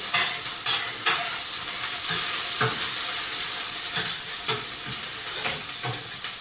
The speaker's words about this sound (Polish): tylko rozmieszam sobie delikatnie, tak, żeby masło było wymieszane dobrze z czosnkiem